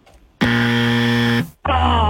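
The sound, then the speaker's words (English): A game show buzzer sounds two loud, harsh, steady buzzes: a long one of about a second, then a short gap and a second blast. “Oh, the buzzer's back.”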